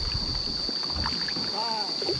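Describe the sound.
Paddle strokes and light water splashes from a kayak on a swift river with rapids, steady and fairly faint, over a constant high-pitched whine.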